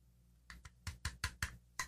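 Clicking together the parts of a Kevin Nash toy figure's head: a quick series of several short, hard clicks and taps in an uneven rhythm, fairly faint and alone.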